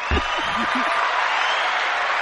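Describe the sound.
An audience applauds as a guest is welcomed to the stage, a dense, even wash of clapping at steady loudness. A few short vocal whoops rise over it at the start.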